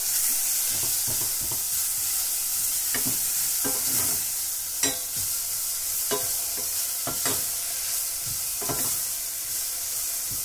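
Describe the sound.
Onions frying in a pan give off a steady, bright sizzling hiss throughout, broken by many scraping and clacking stirring strokes at an irregular pace, with no voices.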